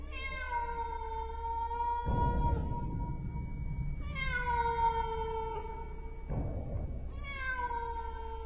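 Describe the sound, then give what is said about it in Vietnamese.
A white cat wails mournfully, giving three long, drawn-out, tonal meows with strong harmonics, loud and alone, with brief rough bursts of noise between the cries. “Con mèo đứng đó, đôi mắt cứ lập lòe nhìn vào trong, rồi bất giác kêu lên những tiếng ai oán.”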